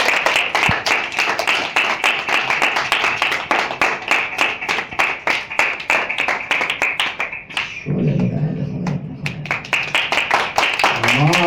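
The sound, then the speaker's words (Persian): An audience claps steadily in rhythm, loud even claps repeating throughout, with a voice briefly heard alongside them in the later part. “حالا یه کف خوشگل یه دقیقه بزن”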